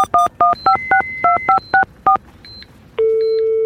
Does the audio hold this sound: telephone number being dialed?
yes